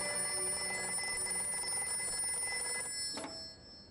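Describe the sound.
Telephone ringing at a home for an incoming morning call: a sustained metallic bell ring with steady, bright tonal overtones that cuts off abruptly near the end, leaving a faint hum.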